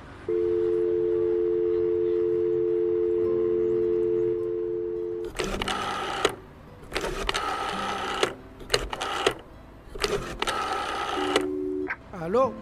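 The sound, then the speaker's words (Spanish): A telephone call is placed. A steady two-note dial tone hums for about four seconds, then a series of loud buzzing bursts follows at uneven intervals as the line is dialed and rings, and a voice comes in at the end. “Me asusté y llamé a mi hermano.”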